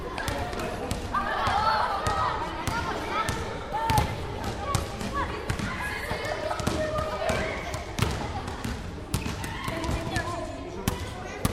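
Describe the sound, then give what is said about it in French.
Basketballs are dribbled by pupils in a school gym. Many sharp, overlapping bounces come in an irregular rhythm, with voices talking throughout. “Donc on a fait un petit atelier où les élèves peuvent dribbler, passer, courir, tirer.”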